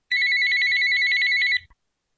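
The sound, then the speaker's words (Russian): A telephone rings with a single continuous electronic trill, a steady, bright, warbling tone that lasts about one and a half seconds and then cuts off abruptly. “Неожиданно у Александра зазвонил телефон.”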